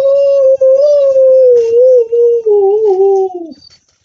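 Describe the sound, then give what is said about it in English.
A person imitates a dog's howl with one long, loud, sustained wavering tone that holds steady, then dips lower and fades out at the end. “And sometimes you can get a dog to howl if you just start howling.”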